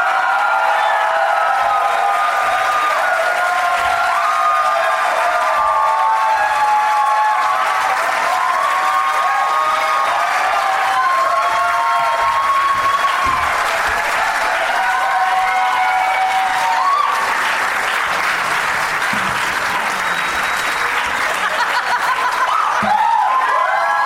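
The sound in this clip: Talk-show studio audience applauding and cheering as the guests are welcomed. Loud, continuous clapping runs throughout, mixed with whoops, cheers and bits of laughter.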